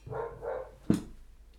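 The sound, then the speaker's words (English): A roughly three-year-old dog gives a few short, harmonic barks in quick succession, followed by one sharper, louder yelp. The calls are moderately loud and stand alone without speech. “Oh my God. That dog. I swear they forgot to put a brain in that dog.”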